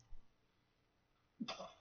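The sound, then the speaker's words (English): A single short sneeze bursts out after a quiet stretch, sharp at its onset and fairly faint overall. “Excuse me. Bless you. Yeah. Sorry. I think I have another one.”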